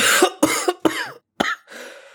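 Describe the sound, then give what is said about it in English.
A person coughing hard while struggling for breath: a few harsh, loud coughs in quick succession, then a drawn-out rasping breath at the end. “still coughing and very clearly struggling for breath”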